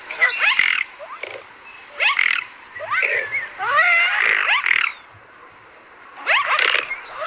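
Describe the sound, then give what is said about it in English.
Mute swan calls: harsh, nasal honks and wheezy, squawking cries in four uneven bursts separated by brief quiet gaps, fairly loud and without any talk. “And this is the call of a mute white swan.”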